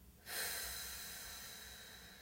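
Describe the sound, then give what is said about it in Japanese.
A single long, deep exhale during a guided breathing relaxation exercise, a soft, breathy rush of air that begins suddenly and slowly tapers off. “モヤモヤがある方は息と一緒にもう全部そのイライラモヤモヤ吐き出しちゃいましょうデトックスです吐き切りますはい吸って最後はい吐きます”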